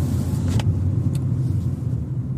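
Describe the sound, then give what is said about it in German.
A car is driving on a road trip around the Cape Peninsula. A steady low rumble of engine and road noise continues evenly throughout, without talk. “Wir haben entschieden, heute einen kleinen Roadtrip zu machen und zeigen Niki und Andreas die Kap-Halbinsel und fahren jetzt erstmal zum Chapman's Peak Drive.”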